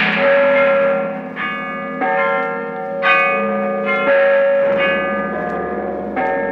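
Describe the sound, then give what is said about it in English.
Church bells ring in a resonant peal of many overlapping strikes. Their different tones sound in turn, and each one sustains and rings on between hits. “bells”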